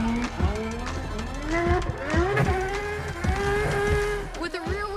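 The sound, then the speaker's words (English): A McLaren race car drifts sideways around a race track, its engine revving in repeated rising sweeps broken by quick gear changes. The loud, continuous mechanical whine keeps climbing and dropping throughout. “this McLaren is a master at sliding with complete control.”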